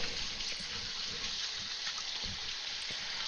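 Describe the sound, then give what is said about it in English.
Warm tap water runs in a steady, soft hiss as butter is washed off hands while baking. The gentle flow continues evenly throughout with no talk. “Got a little butter on my hands. A little warm water will take care of that.”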